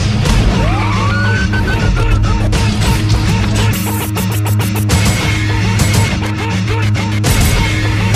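A police car siren wails with a rising sweep over a loud, busy, dense background that continues for the whole stretch.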